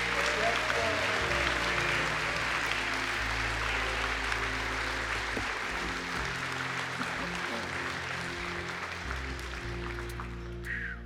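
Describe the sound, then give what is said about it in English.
Steady, dense applause fills a church worship service as the audience claps and cheers in praise, holding at an even level for about eleven seconds with low sustained tones underneath and easing slightly near the end. “Put your hands together. Give him a loud praise in the house.”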